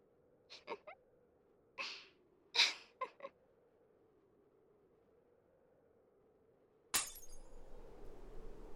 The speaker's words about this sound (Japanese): あ、もうこの辺りも、ひび割れてきちゃったわね。